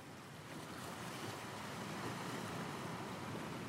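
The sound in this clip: Ocean waves washing onto the shore at Wasaga Beach, a steady, unbroken surf roar that holds at an even level throughout, with no voices.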